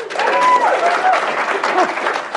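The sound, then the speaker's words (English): An audience cheers and applauds in a show-of-cheers vote on whether New Hampshire should go first. The brief burst is loud and dense, with high whoops rising above it. “Cheer if you think New Hampshire shouldn't go first. Yeah. Cheer if you think New Hampshire should go first.”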